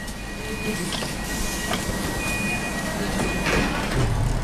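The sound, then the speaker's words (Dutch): Steady rumble inside a moving train travelling from Przemyśl toward Kraków in Poland, with a thin high whine, a few soft clatters and faint voices in the background. “Ik zit in de trein met Henryk en Kazimierz.”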